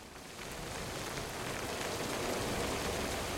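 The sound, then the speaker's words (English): Rain falls steadily on a car, a soft, even hiss of drops on the surface that swells slightly after the first moment and then holds constant, faint and without other sounds. “Instead, Tatishev gets inside the vehicle and sinks into the seat while the rain continues.”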